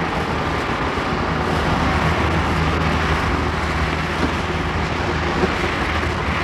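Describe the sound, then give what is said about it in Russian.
Dense, steady traffic roar comes from a Mercedes car moving off among other vehicles in city traffic, under the Borodinsky bridge. It forms an even, continuous rumble and hiss that barely changes in loudness throughout. “На зеленый свет «Мерседес» трогается первым. Отрывается от остальных машин, оставляя позади сизый дымок выхлопных газов. Проезжает под Бородинским мостом.”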